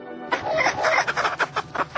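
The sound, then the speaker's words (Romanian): A rooster calls at an agricultural market in Chișinău, first with a sustained loud cry and then a run of short, rhythmic clucks, clear and with no talk over it. “pornit să cumpere un cocoș de la piața agricolă din Chișinău”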